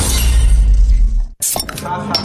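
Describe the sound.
A crunching, shattering crack serves as a tooth breaking in a beer advert. It is a loud, dense burst that cuts off abruptly, followed by a few sharper clinking sounds.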